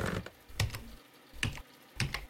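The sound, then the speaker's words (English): Typing on a computer keyboard: a few short bursts of crisp keystroke clicks separated by brief pauses, with no talk over them. “Can I type something to him?”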